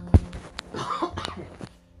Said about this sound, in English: Excuse me, I'm going to cough.